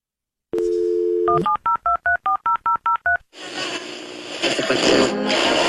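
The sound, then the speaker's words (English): A telephone dial tone gives way to a quick run of about nine touch-tone keypad beeps while someone dials a call, followed by a burst of loud, broad line noise. “I thought he was like dialing somebody.”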